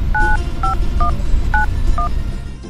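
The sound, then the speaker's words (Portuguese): A telephone being dialled, sounding five short two-tone keypad beeps in an uneven rhythm over a constant low rumbling background. “Peraí que eu vou ligar já pra sua mãe, que ela vai me falar rapidinho o que fazer.”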